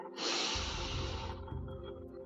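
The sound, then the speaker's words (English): A deep, drawn-out inhale taken as a cleansing breath during a breathing exercise: a breathy hiss that swells quickly, holds, then tapers off into a softer, lower rush of air. “Let's do one more cleansing breath. Let's do one more inhale.”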